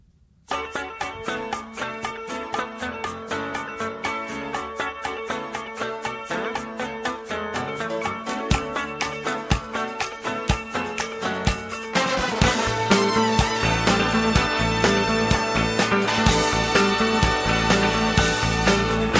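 A 1978 band song plays as full, dense music with a steady driving beat and many rhythmic hits, growing noticeably louder and fuller about two-thirds of the way through, with no talking over it.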